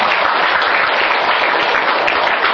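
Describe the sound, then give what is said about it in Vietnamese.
Audience applause greeting three guests: dense, steady clapping that holds an even level from start to finish, with no voices standing out. “Thôi thì cho chung tràng pháo tay cho ba”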